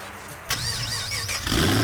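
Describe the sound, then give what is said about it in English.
A car engine starts and revs for a car, bike and truck show, with a wavering tone that rises and falls over a steady low rumble and grows louder near the end. “Rev your engines.”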